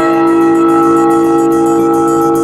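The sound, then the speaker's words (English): A tower bell clanging hard enough to shake rafters and boards: a loud, sustained metallic ring with rich, lingering overtones and a quick repeating shimmer of strikes running through it. “The clang of a tower bell rang, shaking the rafters and boards of the room they were in”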